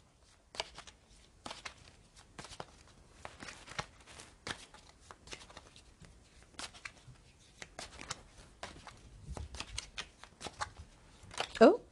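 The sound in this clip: Two stacks of tarot cards being shuffled: faint, repeated papery riffles and sliding bursts in an irregular rhythm that continue throughout, with short pauses between them.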